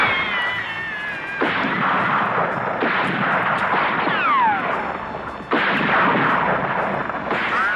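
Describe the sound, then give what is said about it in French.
Gunfire in a saloon gunfight: a few loud, sharp bangs at uneven intervals, each with a ringing tail, and a falling whistle-like tone between them. “En un instant, le joli saloon se transforme en un champ de tir.”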